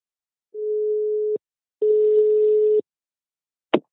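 Ringing tone of an outgoing telephone call: two steady, mid-pitched tones, each about a second long and separated by a short gap, then a sharp click as the line is picked up.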